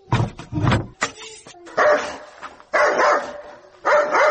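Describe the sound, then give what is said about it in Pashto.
A dog barks loudly in short bursts of sharp barks and yips, separated by brief gaps. “تبیا د سپی وګوره چې نه مو پرېږدي. چغه شه ورک شه.”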